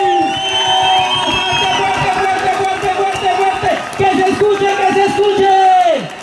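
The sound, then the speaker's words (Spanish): A large crowd cheers and whoops at a teachers' union rally in Bogotá's Plaza de Bolívar, with loud, sustained shouts and drawn-out calls rising and falling throughout, and voices mixed into the din. “a juntarlas y a la vez darle un apoteósico aplauso a todas las delegaciones del resto del mundo.”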